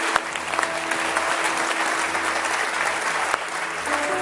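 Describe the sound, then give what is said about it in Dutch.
A church audience applauds during a bilingual English and Dutch service, with steady, dense clapping throughout and a few sharper individual claps standing out. “Give these guys a big hand. Ja, laat ons een applaus geven.”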